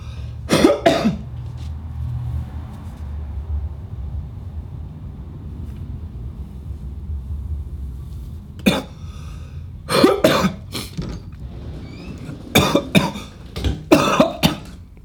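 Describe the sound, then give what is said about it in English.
Harsh, phlegmy coughing after smoking: a short fit at the start, then a long quiet stretch over a low rumble, followed by several clustered bursts of rough coughs toward the end. “There we go. Get that phlegm out.”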